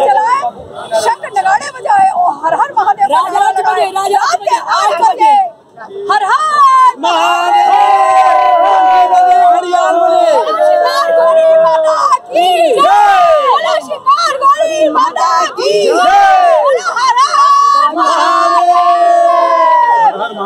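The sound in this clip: Crowd chanting slogans at a celebration in Kashi after a court victory: loud massed voices shouting chants, mixed with whoops and cheers, continuous for about twenty seconds.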